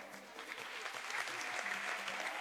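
Applause from an audience celebrating a priest's twenty-fifth anniversary of ordination: steady, dense clapping that grows slightly louder and holds evenly for a couple of seconds, with no talk over it.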